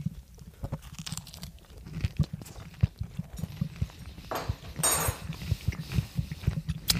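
Chewing on the bread of a burger after biting into it, a steady run of soft, crunchy mouth clicks and munches that carries on throughout.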